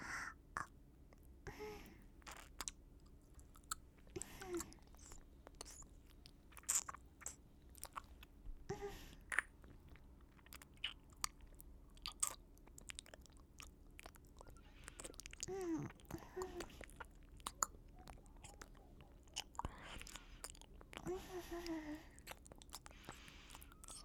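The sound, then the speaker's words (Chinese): Ear licking in an ASMR recording: soft, wet mouth clicks, smacks and slurps recur irregularly. They stay quiet and close over a faint low hiss, with some passages busier than others. “不过好馋呐，先舔一下耳朵应该不会出什么问题吧。”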